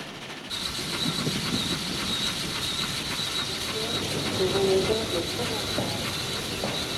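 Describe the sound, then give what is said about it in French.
A train rumbles along as it approaches a station in Lyon, with steady rolling noise and a thin, high wheel squeal running throughout. A brief lower tonal whine rises near the end. “Puis le train entre dans Lyon, la route de Vienne, le Rhône, Et il approche de la gare.”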